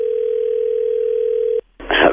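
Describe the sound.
A telephone dial tone sounds while a call is being placed. The steady, single-pitched hum holds for about a second and a half, cuts off to a brief silence, and then a louder, noisy burst follows.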